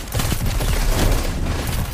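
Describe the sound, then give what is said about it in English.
Dense gunfire from a sniper rifle during a Destiny 2 Crucible match, with loud, continuous overlapping bursts and booms that fill the whole stretch without clear gaps between shots. “This guy's shooting... Dang it, sniper!”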